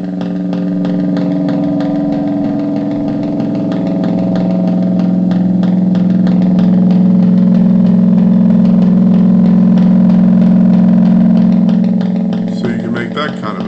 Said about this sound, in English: let me turn it back into a bass guitar. And crank up the feedback.